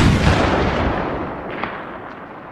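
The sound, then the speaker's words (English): A telescopic-sighted rifle shot fired from half a mile away behind a grassy knoll. It sounds as a loud, deep booming rumble that rolls on and fades steadily over about two seconds. “shot him in the head from half a mile away with a telescopic-sighted rifle from behind a grassy knoll”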